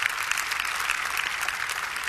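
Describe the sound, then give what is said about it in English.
An audience claps for the worship leaders at a church service, producing dense, continuous applause with a crisp, slightly uneven patter at a moderate, steady level. “Give them another hand clap.”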